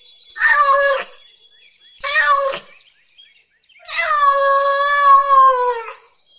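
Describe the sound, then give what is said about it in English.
A cat meows three times, loud and high-pitched, with two short meows followed after a pause by a long, drawn-out one. “Where is the cat?”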